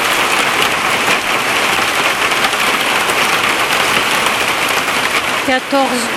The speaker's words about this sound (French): Et soudain, la grêle.